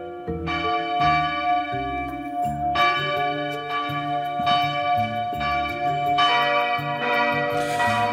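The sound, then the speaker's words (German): Church bells ring in the morning in Burgenland, several bells of different pitch overlapping in a continuous, loud peal of many strikes that sustains throughout. “unser Gewinnspiel rund um burgenländische Kirchenglocken ist wieder da und heute in der Früh, da haben diese gebimmelt.”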